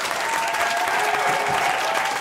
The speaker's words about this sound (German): Spontaner Jubel aus den Zuschauerreihen begleitete das Abstimmungsergebnis